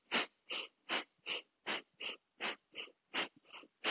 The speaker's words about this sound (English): And again, that is to stoke your fire, and it's called bellows breath.